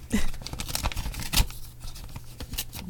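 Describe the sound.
A sealed awards envelope is torn open with a quick run of sharp paper rips, crinkles and rustles that vary in loudness.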